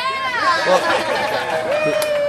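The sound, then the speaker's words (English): A modest crowd cheers and chatters as the doors of a new downtown cafe open at 7 o'clock, forming a steady, dense babble of raised voices. “Well, cheers from the more than modest crowd that was there”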